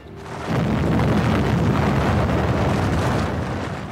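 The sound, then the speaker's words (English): An atomic bomb test explosion in the Nevada desert: a deep, broad rumbling roar that swells after a brief quieter start, then holds loud and steady for several seconds before easing slightly. “The Nevada desert in America is the scene of the latest atomic test.”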